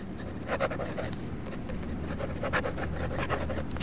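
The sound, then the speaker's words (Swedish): Pen scratching across paper as someone writes a diary entry, a steady run of short, dry strokes that continue without pause. “Jag vill egentligen inte skriva ner det här för det är så äckligt.”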